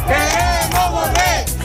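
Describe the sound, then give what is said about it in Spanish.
A crowd protesting at night in the streets of Ceuta chants loudly in rhythmic, repeated bursts, the voices rising and falling together in a steady cadence. “Este es el sonido de las protestas de esta noche.”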